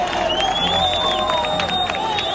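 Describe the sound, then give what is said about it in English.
Applause and cheering break out from a crowd at a rescue site in Pereira as a woman trapped for about 36 hours is brought alive from the rubble of a collapsed building. Loud, continuous crowd noise fills the short clip. “Less than 2 hours later, and one block from the first rescue site we visited in Pereira, applause erupts.”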